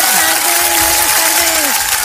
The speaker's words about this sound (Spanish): ¡Un aplauso para ella!